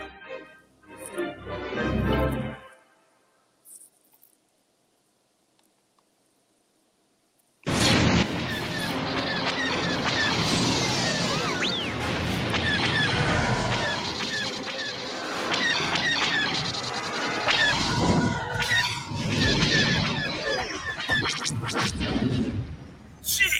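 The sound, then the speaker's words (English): Star Wars X-Wing starfighter sound effect: a short burst, then several seconds of silence, then a loud, sustained roaring engine rush laced with screeching squeals that runs to the end. “Star Wars X-Wing. You can hear it, right?”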